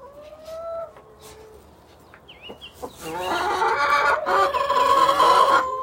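Chickens cluck in their coop in the morning. A few drawn-out calls come first, then the clucking grows louder and busier, with many overlapping calls over the second half.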